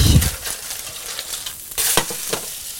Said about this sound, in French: Quand les bords du poisson commencent à être cuits comme ça, en principe, on peut les tourner.